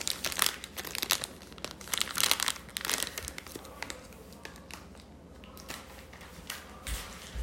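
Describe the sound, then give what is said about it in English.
Crinkling and tearing plastic as a bacon package is opened while dinner is being made. Many loud, dense rustles come in bursts early on, then the noise grows quieter and more scattered, with no talk. “I think I'll put on the bacon first if I can open it.”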